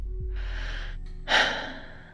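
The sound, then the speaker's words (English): Someone takes a deep breath: a long, airy inhale, a short pause, then a louder, rushing breathy exhale over a faint low hum. “So after a little while of listening, I'll kind of take a deep breath.”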